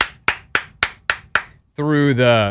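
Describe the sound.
Five sharp, loud hand claps land in a steady rhythm, each a crisp slap with a quick decay, followed by a sustained voice.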